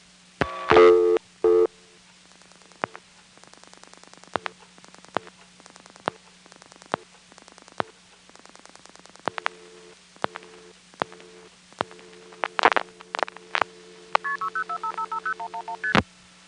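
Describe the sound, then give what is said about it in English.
A telephone line's ring forward signal sent by repeated flashes: many short, sharp bursts cut through a steady line tone and a recorded message, with a few brighter tone clusters near the end. “I continue to flash, and you can hear that each time I flash, that ring forward signal is going all the way down the line.”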